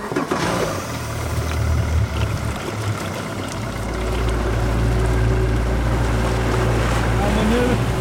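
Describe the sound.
A motorboat engine drones as the boat heads out on the Gullmarsfjorden near Fiskebäckskil toward a seaweed farm, with water and wind noise around it; the low engine rumble grows louder and steadier partway through.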